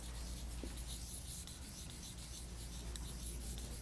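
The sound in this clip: Writing on a board makes a steady, faint rubbing scrape that runs on without a break.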